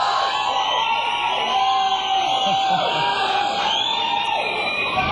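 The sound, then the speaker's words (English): A live studio audience cheers loudly, with shrill, sliding whoops and yells rising above a continuous crowd roar from start to finish. “Do we have a good live audience here? Or what?”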